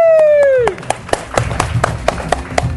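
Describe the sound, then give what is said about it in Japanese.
Scattered handclaps follow a falling electronic tone, a few sharp claps at uneven intervals with voices in the background. “まあ、名前知らなくても拍手してくれると嬉しいですね。”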